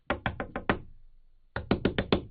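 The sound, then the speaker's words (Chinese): Knocking on a house door: a quick burst of five firm knocks, a short pause, then another rapid burst of five knocks. “丈夫一边敲门一边喊”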